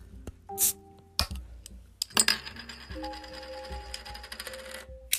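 Faint clicks and glassy clinks come from cracking open a Shipyard Pumpkinhead pumpkin beer and handling a glass with a cinnamon-and-sugar rim. The sharp, irregular taps are spread across several seconds.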